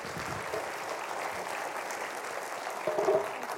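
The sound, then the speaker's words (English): Audience applause greets a speaker walking onto a stage, a soft, even patter of many hands clapping that holds steady throughout and swells briefly near the end. “Let's welcome to the stage a Speedway member. Her name is Jen Merrick. Let's give it up for her.”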